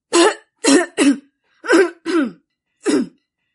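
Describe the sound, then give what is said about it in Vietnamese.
Violent coughing from a person: six harsh, loud bursts in an uneven rhythm, with short gaps between some and longer pauses between others, and no talk. “Y nghe sư đàn chủ nói xong thì nghẹn đỏ cả mặt, bắt đầu ho kịch liệt.”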